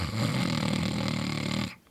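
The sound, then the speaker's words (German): A single snoring-like inhalation from bhramari yoga breathing: a steady, rasping throat sound lasting under two seconds that cuts off abruptly. “Brahmari ist eine Atemübung. Einatmen mit einem Schnarchklang,”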